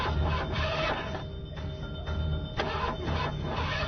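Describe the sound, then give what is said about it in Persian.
A car engine starter cranks over and over without the engine catching, a steady mechanical whirring with regular pulsing beats throughout. “ماشین رو روشن میکنم تا حواست به اطراف باشه.”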